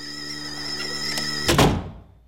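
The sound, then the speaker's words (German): A door slammed shut: one loud, sharp bang with a short decaying rumble, following a steady tonal hum in the background. “Er knallt die Tür hinter sich zu.”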